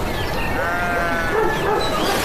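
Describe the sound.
A calf that has gone daft bleats in wavering, nasal cries half-buried in dense, hissing background noise, its voice rising and falling without pause.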